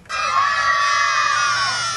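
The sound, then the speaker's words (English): Children at a military family camp give a unit cheer, shouting together in unison. The loud, high-pitched group yell starts abruptly and holds for about two seconds. “At the camp, they tour a fake Iraqi village, form units called the Bulldogs, the cats, and the animals, and do team-building exercises, like giving a unit cheer”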